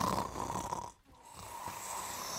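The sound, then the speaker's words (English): Snoring from people asleep on plastic mattresses in the upper story of a hut on a mountain trail: a faint, rough, breathy drone that breaks off briefly near the middle, then resumes. “And for the second night in a row, I'm lulled to sleep by snores.”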